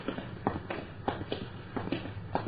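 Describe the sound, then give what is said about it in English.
Footsteps walking down a street, a faint, steady series of many soft steps at an even walking pace, with no other sound over them. “Let's walk down a little further, shall we?”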